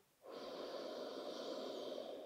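A person breathes out during a sophrology relaxation exercise, producing one long, soft, airy exhale that starts after a brief hush and stays even and sustained.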